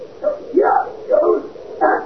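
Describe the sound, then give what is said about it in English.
A dog barks and yelps several times in quick succession, with rough, mid-pitched calls at an irregular rhythm, fairly loud and heard alone without talk. “Have you got the dog? Well, I let him loose.”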